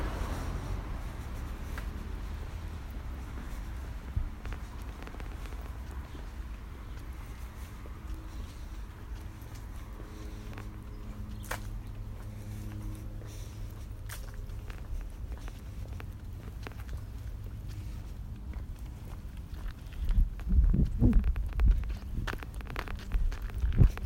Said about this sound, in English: We're going to do my walk to the BART each morning. What I'm going to do is count the amount of walkers or like fellow pedestrians that are walking around.